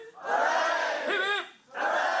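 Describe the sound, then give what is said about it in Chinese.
Loud cheering from students and staff at the University of Hong Kong as a livestream shows the Shenzhou-23 spacecraft lifting off: two strong bursts of massed shouting, split by a brief dip. “跟随着飞船顺利升空，现场随即传出欢呼和掌声。”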